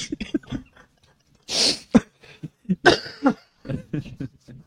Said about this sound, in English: you could tell I'm getting over a cold, but anytime I laugh, I start coughing